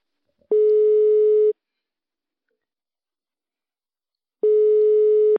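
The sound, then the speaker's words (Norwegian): Telephone ringing tone heard while a call is being placed: two steady, mid-pitched tones of about a second each, separated by roughly three seconds of silence, clean and alone. “så får vi prøve å ringe opp”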